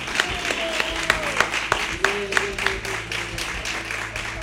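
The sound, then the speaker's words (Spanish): Scattered audience applause at a fair concert, loose individual claps standing out sharply at an irregular pace over a low bed of voices and background murmur. “Así que cada uno nos merecemos un aplauso”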